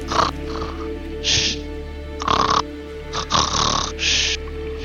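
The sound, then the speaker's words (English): Fake snoring by a person: several rough, nasal snorting breaths with pauses between them, alone without speech. “You managed to pat him awake, and before you see he keeps fake snoring.”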